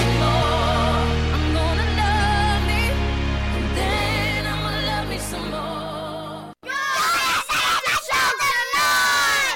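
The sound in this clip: Loud shouting from very shouty football mascots after a Charlton match against Southend. Long, held cries give way, after a short break, to a burst of choppy, rapid yelling near the end.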